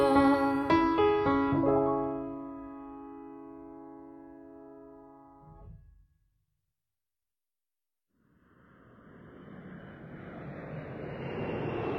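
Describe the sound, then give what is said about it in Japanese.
An airplane taking off, a broad roar that swells steadily louder after a short silence, following an earlier sustained tonal sound. “拓也たちを乗せた飛行機はアメリカへと飛び立ちました”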